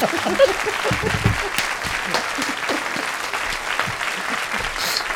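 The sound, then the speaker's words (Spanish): An audience applauds with dense, steady clapping that stays even in volume and fills the whole stretch without a break. “Un aplauso para todos nuestros”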